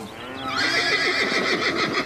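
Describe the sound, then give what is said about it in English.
A pony whinnies loudly while chasing runaway steers on a ranch, giving one long, wavering, high-pitched neigh that trembles as it carries on to the end. “Shane fairly lifted Joe's horse into a gallop in one leap, and the pony lit out after those steers like it was fun.”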